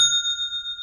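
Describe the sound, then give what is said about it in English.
A single bright notification ding signals an online store sale, a clear, high chime that rings on steadily with little decay across the short clip. “I love that. That is the sound of another sale on Shopify,”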